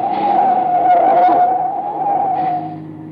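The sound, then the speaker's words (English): Tires squeal as a car skids on a dark road while being forced off it, a sustained, strained screech that holds steady, then weakens and fades near the end. “He's trying to run us off the road! Get down, Mitchell! Get down! Hey, we're skidding! Hey, brace yourself! Watch out!”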